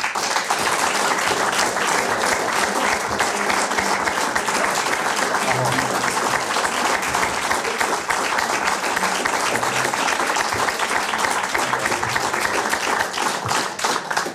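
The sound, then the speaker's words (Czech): Sustained applause from a talk-show audience as two guests are welcomed. Dense, steady clapping fills the whole stretch without a break. “Přivítejme Arnošta Goldflama a Marka Daniela.”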